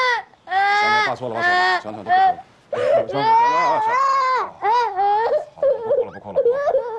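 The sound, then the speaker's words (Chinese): A child cries and wails loudly in long sobbing bursts, the pitch swinging up and down, nearly continuous with brief breaths between outbursts. “你别哭。行了，不哭了。”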